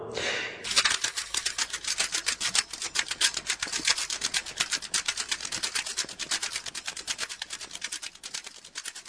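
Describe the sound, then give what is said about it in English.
Tape runs off the end of a reel spool, its loose end slapping with rapid, even flapping ticks. The beat stays steady and moderately loud for the whole stretch after a short scraping start. “For some reason, the rest of the reel is taken up with a recording of tape running off the end of a spool.”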